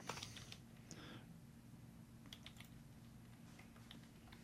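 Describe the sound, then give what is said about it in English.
Soft typing on a computer keyboard, a loose scatter of many light key clicks over a low, steady hum. “Let's just go to Urban Dictionary and type in "rotten poncho."”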